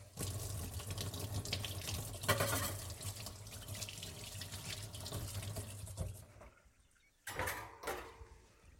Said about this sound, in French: je débarrasse mon fouet et je le lave directement.